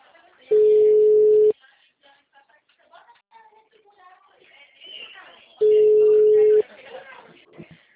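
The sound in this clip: Two long, steady telephone tones follow a dropped call. Each is loud and unbroken for about a second, and they are separated by several seconds of people talking.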